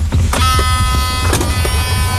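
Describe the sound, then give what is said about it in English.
Electric car near an old island salt mine, giving a steady electric whine of layered high, sustained tones over a low hum. It stays fairly loud and even, with a few soft clicks. “Electric car.”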